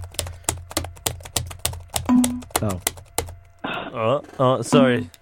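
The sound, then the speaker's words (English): Typing on a computer keyboard, a fast run of crisp, clattering key clicks that keeps going as people talk over it in the second half. “typing in your details now”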